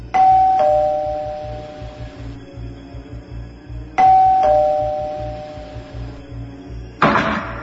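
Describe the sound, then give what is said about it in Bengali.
A doorbell rings twice, each a bright two-tone ding-dong with a long fading tail, followed by a short knock or thump at the end; no voices. “এমন সময় calling বেলের আওয়াজে চমকে উঠল সে।”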